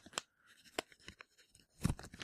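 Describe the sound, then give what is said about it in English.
Paper is torn off a sheet for a forehead name game, heard as a few short, crisp ripping and crunching bursts separated by quiet gaps, the last one loudest. “So we're going to get out some paper here. Here's your piece.”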